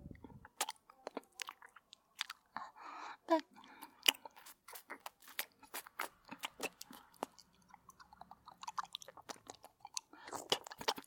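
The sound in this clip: Soft, wet licking and chewing of food makes many quick, irregular crunches and squishes, fairly faint, with no talk.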